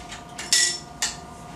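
A sink drain pipe under a washbasin is unscrewed by hand with hard plastic clunks and scrapes. There are three short knocks, the second loudest with a brief bright ring, over a quiet background.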